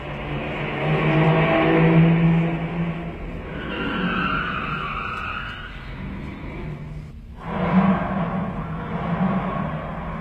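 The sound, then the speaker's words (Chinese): A car driving away, a continuous rough roar of engine and tires that swells and eases over several seconds, with no voices. “汽车又开走了”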